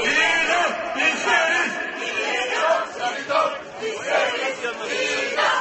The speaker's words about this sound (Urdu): مظاہرین نعرے لگا رہے ہیں کہ ہم موت کی سزا چاہتے ہیں۔